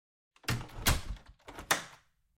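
A home's entrance door is shut hard, giving two sharp, heavy thuds a little under a second apart with short rattling noise around each, loud and alone.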